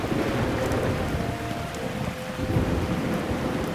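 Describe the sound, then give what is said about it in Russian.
Steady rain falling in a continuous dense hiss, with a low thunderous rumble underneath and no voices. “Дождь.”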